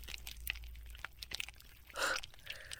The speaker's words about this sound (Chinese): 喂，你在吃什么呢？伟哥